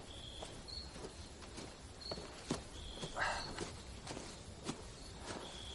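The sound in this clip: Footsteps of someone walking through a forest among trees: faint, irregular soft steps over a thin background of chirping insects.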